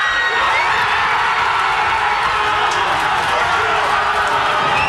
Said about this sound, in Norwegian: Ja, det var både allsang, roing og full jubel I Hammerfest.